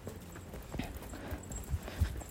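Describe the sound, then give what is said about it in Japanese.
Footsteps walking outdoors on the way to post a letter: a few faint, soft thuds at an uneven pace over steady background hiss. “郵便物を出しに歩いてるんですけど”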